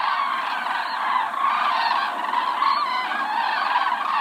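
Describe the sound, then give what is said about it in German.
A large flock of migrating cranes calls at dawn in a dense, unbroken chorus of overlapping trumpeting honks, steady and loud throughout with no pauses. “So hört sich ein Kranichzug an.”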